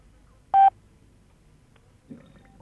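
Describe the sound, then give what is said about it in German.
A German talking clock's time signal: one short, loud electronic beep, a steady mid-pitched tone lasting a fraction of a second, followed by near silence with a faint soft thud. “Beim nächsten Ton ist es 11 Uhr, 3 Minuten und 10 Sekunden.”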